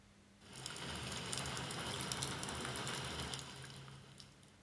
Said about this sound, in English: Rain. Wind.